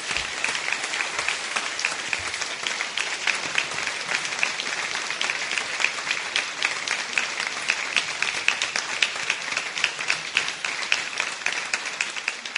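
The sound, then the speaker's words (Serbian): Applause from the audience at a poetry reading, given for a poet: dense, even clapping that holds steady at a fairly loud level for the full twelve seconds without building or fading. “Hoćemo jedan aplauz za Radmilu Lazić.”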